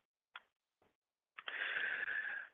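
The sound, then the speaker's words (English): A long, deep breath drawn in, heard as a soft, steady rush of air that lasts about a second, preceded by two faint short clicks. “But what we're going to do right now is just take deep breaths.”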